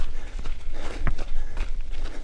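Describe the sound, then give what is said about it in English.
Footsteps of people running on a desert path in Arizona in December: many quick, rhythmic footfalls with rough, gritty scuffing, moderately loud and continuous with no talk. “we're going for a run. A run on a desert path near his house.”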